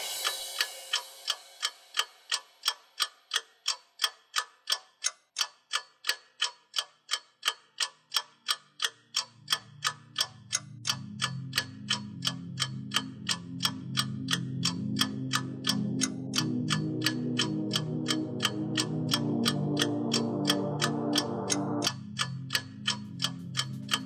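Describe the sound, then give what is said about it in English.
Steady, even ticking from the clockwork mechanism of a huge telescope, with many regular ticks throughout; low sustained droning tones enter about a third of the way in and swell beneath the ticks. “Through this opening, I can see a sprinkling of stars that cast a kind of frosty glow over the intricate mechanism of the huge telescope. The ticking sound you hear is the vibration of the clockwork.”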